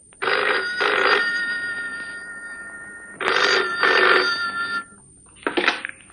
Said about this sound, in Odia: ହଠାତ୍ ଦିନେ ଫୋନ୍ ଆସିଲା